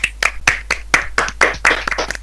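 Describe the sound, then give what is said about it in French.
A few people clap their hands in applause for an interview guest: many sharp, loud claps in an uneven, quick rhythm with no talk over them. “je pense qu'on peut l'applaudir.”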